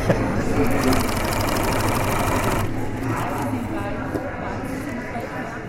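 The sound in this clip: A sewing machine runs continuously while a giant picnic blanket is stitched, its motor whirring with a rapid, even needle chatter that shifts slightly partway through.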